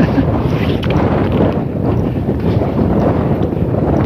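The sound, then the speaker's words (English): Brisk wind buffets the microphone outdoors: a loud, steady, low roar of gusty rumble that runs without a break from start to finish. “That wind is brisk.”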